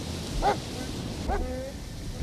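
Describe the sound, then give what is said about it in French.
Police dogs bark outdoors along the Berlin border, two sharp, moderately loud barks spaced under a second apart over a constant windy hiss. “Écoutez les chiens, on les entend là, encore une fois.”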